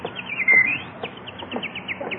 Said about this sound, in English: look at that beautiful bird on your lawn. Oh, look, he's hopping over to us.